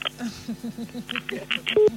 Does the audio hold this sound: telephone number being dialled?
yes